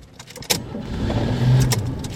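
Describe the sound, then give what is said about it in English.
A car engine starts for a new driver, a low rumble building steadily after a sharp click or key jangle, with another brief click later and no talk. “the car has started.”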